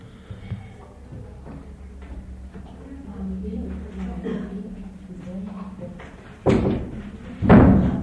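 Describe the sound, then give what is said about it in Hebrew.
A door is closed after stretches of talk: two loud, heavy slams with sharp thuds, the second louder, following quieter murmuring voices. “אפשר לסגור את הדלת.”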